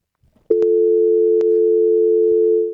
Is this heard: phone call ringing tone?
yes